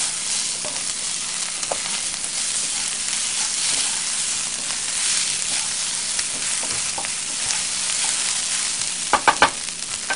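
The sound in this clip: Fried rice fries and sizzles in a pan while it cooks, a steady, bright hiss that holds throughout. A few sharp clatters of stirring come near the end.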